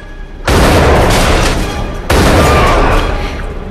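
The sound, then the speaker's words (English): Two loud, booming gun blasts from a picked-up gun fired at a person, each hitting hard and then roaring on before it fades. “Rachel picks up the gun and fires at Sonia.”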